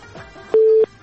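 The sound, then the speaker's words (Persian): A single telephone ringing tone sounds as a call connects: one steady, mid-pitched beep lasting about a third of a second, clear over a quiet background. “تلفنایتان باشین که وصل میشه صحبت بکنین موقعیتتان جور بکنین چندین بار باید دیده بگویم و بازم فکر میکنم تماس داریم میریم طرف تماس ببینیم که کی است”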